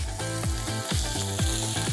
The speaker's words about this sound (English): So we have to give the crust and then let it cook nicely through for a little bit of time, low fire.